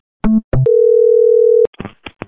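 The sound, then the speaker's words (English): A telephone dial tone sounds as a call is placed. Two brief tones come first, then a loud, steady hum lasting about a second, followed by a few short, fainter clicks and beeps. “Get off the phone. I'm calling the HOA right now.”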